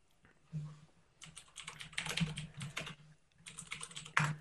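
Soft typing on a computer keyboard while entering a web search. Quick keystrokes come in a few irregular clusters separated by short pauses, with a faint low hum underneath.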